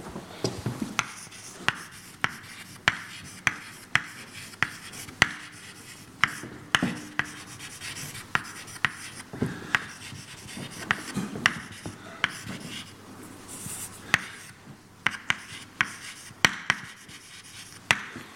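Chalk or marker taps and scratches on a board as a classroom model is written out: many short, sharp clicks and strokes in an uneven rhythm, fairly quiet and steady throughout, with no talking.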